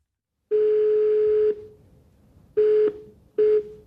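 Telephone call tone on a line to the wife of a Russian soldier in Russia: a steady mid-pitched electronic beep sounds three times, first a long tone of about a second, then two short ones, with no voices.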